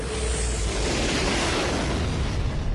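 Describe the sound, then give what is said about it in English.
A continuous loud roar of explosions and concentrated fire on a Star Destroyer during a space battle, broad and rumbling, holding steady throughout without distinct separate blasts. “Concentrate fire on that Star Destroyer.”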